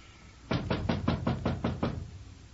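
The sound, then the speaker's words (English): Loud knocking on a door, a rapid, evenly spaced run of sharp raps with nothing else heard. “Hey, Charlie, open up. It's me. Ah, oh, come on, Charlie. What do I have to do? Break this door in?”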